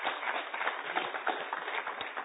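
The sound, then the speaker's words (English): A church audience claps to welcome a speaker to the stage, a fairly quiet, muffled patter of many hand claps that continues throughout. “Let's put our hands together and welcome our awesome brother.”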